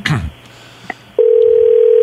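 A telephone rings on a call after a brief burst of noise, as a steady, unbroken mid-pitched tone that continues to the end.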